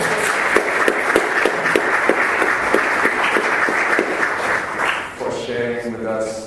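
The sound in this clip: Audience applause at a mantra meditation session, brisk clapping holding steady for several seconds before fading out as a voice begins speaking.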